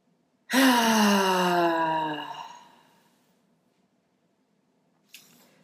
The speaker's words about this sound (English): Making sure to exhale audibly, get that energy moving. One more deep breath.